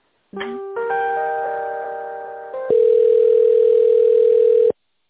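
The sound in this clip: Telephone tones play while a call is transferred: a brief chirp, then a sustained chord of several steady pitches that slowly fades, then a single loud, flat tone that holds for about two seconds and cuts off abruptly.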